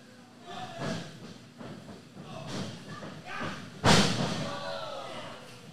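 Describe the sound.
A single heavy thud as a wrestler's head is slammed into the mat during a tag-team wrestling match, preceded by a few softer bumps, with commentary voices talking throughout.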